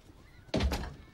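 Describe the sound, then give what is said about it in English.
A clothes brush thrown against a door lands with a single dull thud: a sudden, sharp onset after near-quiet, then a short fading rumble, with no voices. “He throws the clothes brush at the door.”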